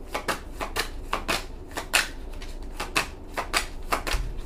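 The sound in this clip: A deck of cards being shuffled: many crisp, papery riffling bursts in quick, uneven rhythm, moderately loud and with no voices.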